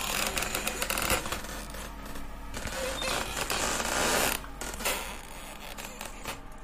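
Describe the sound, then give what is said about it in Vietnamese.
Creaking of a wooden door bolt sliding against a wooden door, a dense, continuous grinding creak with rough mechanical rattles that holds steady for several seconds. “Tiếng then gỗ di chuyển rít vào cánh cửa gỗ, lét ca lét két, kỳ quái.”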